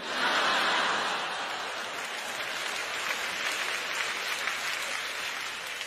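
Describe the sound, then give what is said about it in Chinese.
Steady applause from an audience at a live Cantonese storytelling session. Dense, continuous clapping lasts about six seconds, loudest at the start and then holding level, with no voices over it. “你哋唔好拍手啊”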